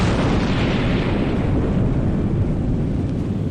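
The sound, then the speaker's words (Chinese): Deep roar of an atomic bomb explosion from a Chinese nuclear weapons test, a loud, dense rumble that holds steady without breaks for the whole stretch. “原子弹的巨响尚未散去”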